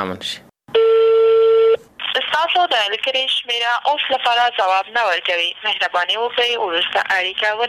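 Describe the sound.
A telephone call to a provincial governor's number that rings unanswered: one steady ringing tone lasting about a second, then a voice talking continuously in rapid speech.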